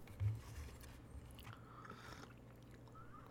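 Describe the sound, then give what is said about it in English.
Faint chewing of a cheese snack, soft crunching and biting with one stronger crunch near the start, then quieter mastication alone. “I'm trying to really coat my palate with the cheese, you know. Really just get it all around in there.”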